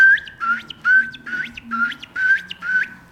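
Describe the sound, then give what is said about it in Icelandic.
A ringed plover calls on a riverbank with a run of clear, piping whistles, repeated in a quick, regular series with short gaps between them. “þá svona kom þetta sandlóan, hún var að hlaupa þarna rétt við í eyrinni með hreðrin sín og þá heyrði maður hérna.”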